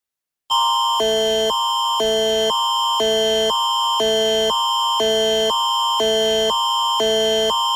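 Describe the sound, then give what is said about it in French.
A public emergency alert system test tone from Prince Edward Island's emergency measures organization starts after a brief silence. It is loud and steady, alternating between two tones in a pulsing pattern about every half second, with no voices. “Ceci n'est qu'un test. Il s'agit d'un test du système d'alerte au public de l'Organisation des mesures d'urgence de l'Île-du-Prince-Édouard.”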